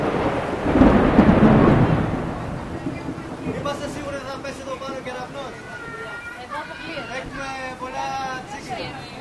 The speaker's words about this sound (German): This rain is twice today for me. Zum zweiten Mal schon so ein Regen heute.